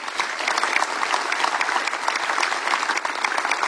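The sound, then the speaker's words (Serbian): Audience applause for the organizers at a chanson festival: steady, dense clapping from a crowd, sustained at even loudness throughout with no pauses, with no clear voice over it. “Aplauzi za organizatore.”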